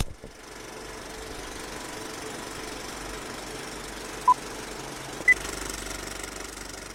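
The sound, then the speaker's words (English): A film projector warming up with its reels spinning, giving a steady low mechanical whir and rattling hum throughout, with two brief, sharp beeps near the end. “The projector is warming up, the reels are spinning, and Flick Fix starts right now.”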